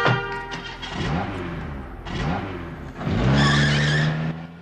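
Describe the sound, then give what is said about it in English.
A car speeds out of a car park, its engine revving in several rising bursts and ending with a loud, high tire squeal. “she speeds out of the car park”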